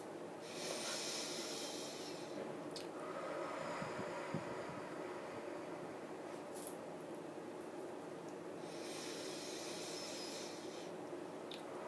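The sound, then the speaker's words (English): Slow, deep breaths drawn in through the nose and let out through the mouth during a guided breathing exercise, soft and airy, with long hissing inhales and exhales. “We start with three deep breaths. Inhale through your nose and exhale through your mouth.”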